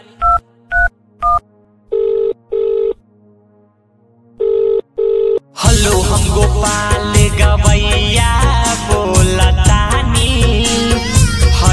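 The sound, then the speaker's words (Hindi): Three quick two-tone keypad beeps of a phone being dialled to call a sister-in-law, then two pairs of double-burst ringing tones, before loud music takes over. “लागता कि भौजी के phone करे के पड़ी अच्छा रुका फोन करो तनी”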